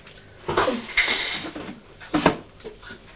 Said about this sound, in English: So pop the lid back on, please.